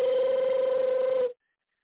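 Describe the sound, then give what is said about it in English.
A telephone rings once, a steady buzzing electronic ring with a slight warble that holds for just over a second and then cuts off into silence. “your phone ringing again”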